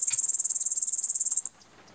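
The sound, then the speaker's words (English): A grasshopper's song, played back in a field through a device, comes as a rapid, even train of sharp, very high-pitched pulses. It sounds loud and alone for about a second and a half, then stops abruptly. “So this one is playing the sound of an ant? No, actually, from a grasshopper.”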